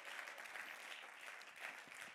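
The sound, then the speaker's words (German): Audience applause honouring a long-serving member, a dense, even patter of many hands clapping. It stays faint and steady throughout, with no talk. “Genau, das ist ein mega Applaus.”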